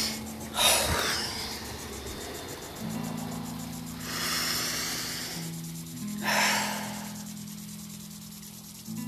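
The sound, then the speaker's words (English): Deep breathing exercise with breaths drawn from the stomach: three slow, noisy breaths spaced several seconds apart, each swelling and fading, over a steady low drone. “You breathe in through the deep part of your stomach. And then you breathe down to your feet to set yourself so you're circulating, not just like high energy breaths”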